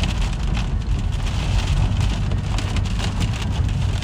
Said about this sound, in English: I'm kind of in woods with trees and the wind is fucking treacherous.